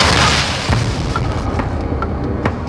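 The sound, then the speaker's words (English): A loud gunshot boom in a crime drama scene, a heavy, full-bodied blast whose rumble fills the short clip, with a few faint sharp clicks trailing behind it. “I told you don't shoot nobody. The first thing you do is shoot somebody.”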